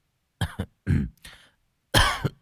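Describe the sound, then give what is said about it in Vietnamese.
A young man coughs a few times: four short, rough bursts of coughing and throat-clearing in two clusters, separated by brief silences, moderately loud and without speech. “Người thanh niên húng hắng ho vài cái rồi ngắt lời”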